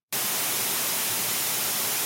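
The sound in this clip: Harsh static hiss used to mark censored information in an audiobook, starting abruptly and holding as a steady, loud, even wash of white noise for about two seconds.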